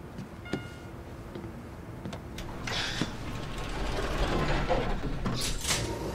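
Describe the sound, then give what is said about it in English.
An elevator button is pressed with a few sharp clicks, then the doors slide and the mechanism rumbles in a low, swelling hum. “He pushes the button. They get on the elevator.”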